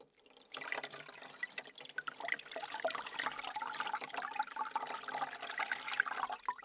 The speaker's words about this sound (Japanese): このくらいでいいですね。お湯で流していきます。